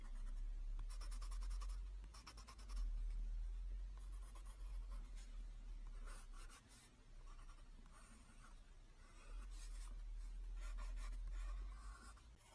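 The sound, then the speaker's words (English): Pencil sketching on paper: faint, continuous graphite scratching made of many short strokes, with brief pauses between bursts of drawing and no talk. “I'm gonna start sketching. So you have to be very still.”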